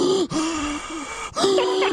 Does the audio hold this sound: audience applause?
no

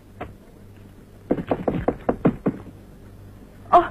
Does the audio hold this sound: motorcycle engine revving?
no

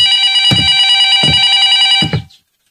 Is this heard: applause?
no

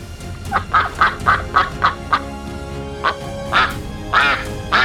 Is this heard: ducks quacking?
yes

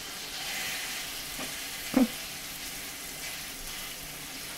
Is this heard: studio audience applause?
no

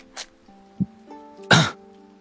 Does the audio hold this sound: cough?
yes

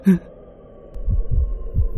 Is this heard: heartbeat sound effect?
yes

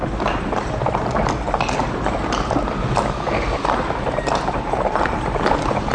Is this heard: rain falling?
no

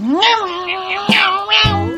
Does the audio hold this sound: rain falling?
no

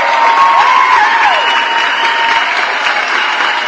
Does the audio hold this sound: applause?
yes

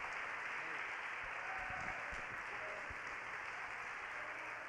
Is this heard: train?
no

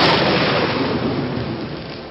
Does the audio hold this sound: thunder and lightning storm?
yes

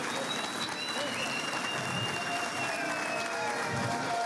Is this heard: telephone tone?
no

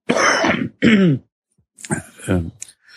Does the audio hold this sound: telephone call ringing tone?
no

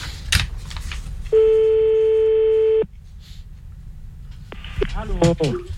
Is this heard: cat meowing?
no

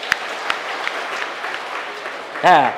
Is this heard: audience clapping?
yes

